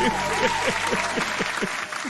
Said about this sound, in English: Play the clap button. Play the clap button. Play the clap button.